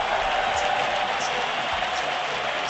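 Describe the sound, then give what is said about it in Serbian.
Applause from the south stand of a stadium greets Partizan players as they run out in black-and-white kits, a dense, steady wash of crowd noise that holds at an even level throughout. “Ove aplauze koje čujete, južna tribina upućuje svojim ljubimcima koji su istrčali u crno-beloj opremi.”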